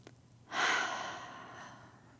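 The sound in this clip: A single slow, deep breath taken during a guided breathing moment: an airy, breathy rush begins after a brief quiet, swells quickly, then fades gradually over more than a second and a half, heard alone.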